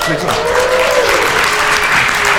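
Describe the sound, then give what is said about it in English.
An audience at a live show in Beijing applauds, a steady, dense roar of clapping that fills the whole stretch, with a voice audible over it. “coming to you this week from Beijing, where I am delighted to see so many people. Let's hear some noise.”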